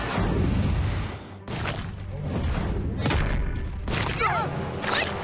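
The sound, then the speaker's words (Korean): Cartoon missile launch and explosion effects arrive as a few loud blasts, each a booming burst with rumbling thuds. Brief gaps separate the bursts. “스밀러 미사일! 발사!”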